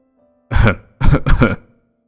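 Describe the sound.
A person clearing their throat and coughing, acted out by a voice: one harsh rasping burst followed by two quick joined bursts, loud and with no talk.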